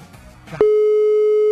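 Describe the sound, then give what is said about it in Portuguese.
A telephone line tone sounds as a call is placed to a radio station contest line: a steady, even single-pitched tone starts abruptly partway through and holds unbroken, after a brief stretch of faint background sound. “Ai, meu Deus, já tá chamando.”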